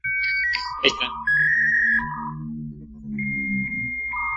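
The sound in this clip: Dial-up modem tones while connecting: a string of electronic beeps and a sharp burst, then sustained warbling tones that shift in pitch, with no talk.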